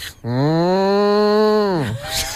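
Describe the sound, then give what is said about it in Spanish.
A person imitates a cow's moo with a long, steady, nasal lowing call of nearly two seconds that dips in pitch at the end. “¿Y la vaca cómo hace?”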